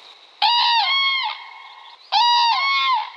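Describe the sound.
Two cranes call in flight, dropping toward reeds: two loud, rich trumpeting bursts, each with a sustained honk that steps into a second, slightly lower section.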